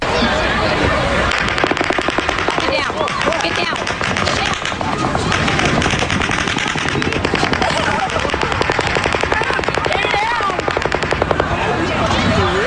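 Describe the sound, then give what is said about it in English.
Loud automatic gunfire during a shooting, rapid cracking bursts repeating without pause across the whole stretch while people talk underneath. “This is the sound of the shooting with some people just talking as this is happening.”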